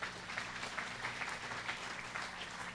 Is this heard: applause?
yes